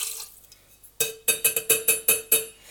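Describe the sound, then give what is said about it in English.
Vodka glugs into a two-ounce jigger at a small kitchen counter, a quick run of several sharp, rhythmic pulses that start abruptly after a soft lead-in. “fill this jigger with 2 ounces of vodka.”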